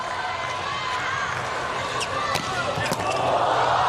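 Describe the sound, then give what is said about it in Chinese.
Volleyball serve struck for an ace that gives Slovenia first set point, with two sharp ball impacts cutting through a loud, steady arena crowd roar. “哇，这个真是敢发呀！ 是的 ，ace 球帮助斯洛文尼亚队拿到了第一局局点。”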